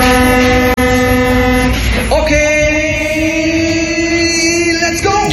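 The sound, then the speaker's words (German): Funfair sounds at a folk festival in Augsburg: loud, sustained horn-like tones with a brief break near the start, shifting to a new set of pitches partway through. “So klingt seit Freitag wieder in Augsburg. Der Augsburger Plärrer ist gestartet.”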